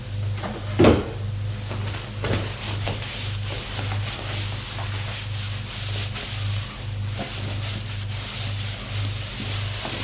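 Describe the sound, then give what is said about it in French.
A chest is opened and a beige dress is lifted out: a sharp knock near the start, a softer thump shortly after, then faint rustling over a rhythmic, pulsing low background. “Ouvre un coffre, en sort une robe beige, se la met,”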